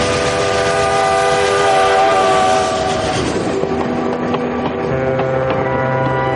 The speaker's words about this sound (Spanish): Un tren atraviesa un túnel.